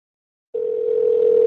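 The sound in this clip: A telephone ringing tone, suspected to be fake rings, heard while dialing a business number: after a moment of silence, one steady continuous tone begins and holds to the end.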